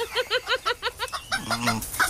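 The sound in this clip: Chickens clucking in a sound effect: a quick, rhythmic run of short, bright clucks, then a longer, lower, drawn-out call.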